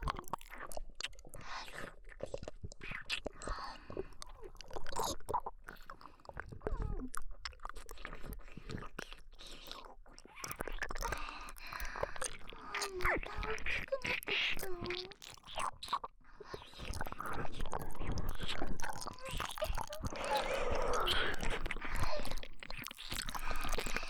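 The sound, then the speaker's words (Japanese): Close, quiet wet licking and mouth sounds of someone eating something tasty, with soft smacks, squishes and small crunches coming in irregular bursts that grow denser toward the end. “おいしいよ。ずーっと舐めてられるよ。”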